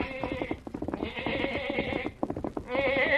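A black lamb bleats in three wavering, nasal cries, each loud and separated by short gaps, the last still going at the end.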